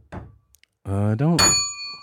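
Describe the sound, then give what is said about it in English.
A single bright bell ding during a casual trivia-style game rings out right after a short vocal sound, its clear tone sustaining and slowly fading. “It's a bell, right?”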